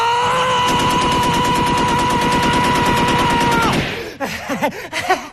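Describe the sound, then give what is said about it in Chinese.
Machine-gun fire in a comedy sketch: one long, rapid, steady burst of shots lasting about three seconds, then it cuts off and a voice follows. “你这一梭子子弹下去，成功避开了所有敌人。”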